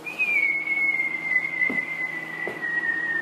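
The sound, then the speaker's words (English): A high, sustained whistle, like an incoming shell in battle, drifts slowly downward in pitch as one long unbroken tone. It is clear and fairly loud, with no voices over it. “when you're in the heat of battle, and you're going through a field like this or enemy territory, and you hear that whistle”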